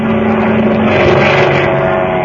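A seaplane engine drones loud and steady as the aircraft starts its takeoff run on the water, a constant buzzing roar with a low humming tone and no voices.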